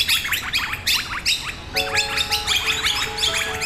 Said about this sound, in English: our bird life in our gardens and even in our urban spaces is bright and brash and engaging and can be very noisy